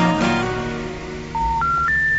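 Three electronic beeps of a telephone being dialed sound over background music, each steady tone stepping higher in pitch than the one before.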